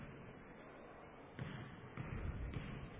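A basketball dribble during free throws in a game between Knox County and Palmyra, with a player bouncing the ball hard at the line. A few low, heavy thuds rise out of a steady hum of crowd noise.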